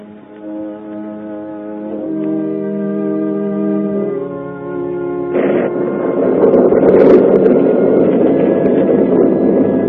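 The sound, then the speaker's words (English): Moaning night wind and a roaring storm: low, sustained moaning tones shift in steps, then a broad, rushing roar swells in midway and continues loudly to the end. “And over them all, the moan of the night wind and the ceaseless roar of the storm.”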